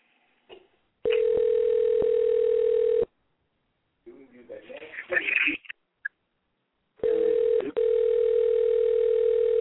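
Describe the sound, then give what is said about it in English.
Telephone ringback tone on an outgoing call waiting to be answered: two long, steady, mid-pitched tone bursts separated by a gap filled with muffled voices and handling noise. “Let me see if I get him on the phone.”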